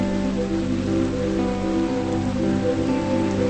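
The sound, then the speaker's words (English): Heavy rain pouring onto a river, a dense, unbroken hiss that holds steady throughout, with no voices. “Later, the rain continues to fall heavily on the river.”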